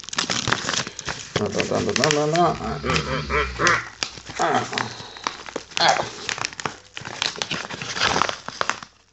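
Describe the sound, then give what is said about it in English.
Paper crinkling and rustling as a posh-looking Royal Mail envelope holding a mystery package is handled and opened, in bursts of crackle with a voice sounding through it. “about to open my mystery package that's just arrived via Royal Mail in a posh-looking envelope. And, I'm going to just open the package now.”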